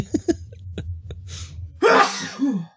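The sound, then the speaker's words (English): A single loud, explosive human sneeze, a sharp noisy burst that tapers off quickly after a few quieter short sounds. “Whoa, bless you. Thank bless you, boy. That was a sneeze.”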